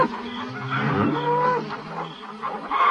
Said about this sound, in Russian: И теперь они громко и требовательно мычали.